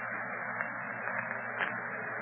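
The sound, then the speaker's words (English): Radio static from a weak link to the outside, blamed on rising wind: a steady, band-limited hiss runs without a break, with faint crackles scattered through it and no voices. “My operator able to reach the outside by radio yet, Sabul? No, Octopus Master. The static is very bad. This wind that is rising must be causing a disturbance.”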